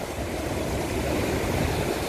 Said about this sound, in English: heading for Cape Horn, and waves bigger than this. And they are building because obviously it's shallow